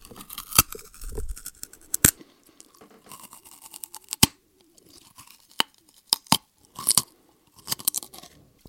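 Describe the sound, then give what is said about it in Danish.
Raw carrots being bitten and chewed: many sharp, irregular crisp crunches and snaps, loud against quieter chewing between them, with no talk. “nu har vi kun gulerødderne tilbage. De larmer, når man spiser dem. Jeg ved ikke, om jeg prøver at spise den her og optage, hvordan det lyder.”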